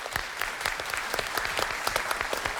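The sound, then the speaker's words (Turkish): An audience applauds a contestant's performance on a quiz show, a fairly soft patter of many claps in which individual sharp hand strikes pop out at an even pace. “Çınar'a tekrar büyük bir alkış.”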